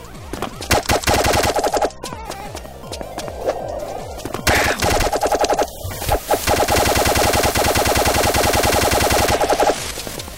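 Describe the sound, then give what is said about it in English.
Automatic gunfire in a video game rattles out in loud, rapid bursts. The shots repeat almost without a break through the whole stretch, with only brief pauses between volleys. “A lot of extra shots to kill that one.”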